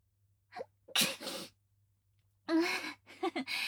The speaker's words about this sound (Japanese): さすがに春の夜は寒いねくしゃみ出ちゃった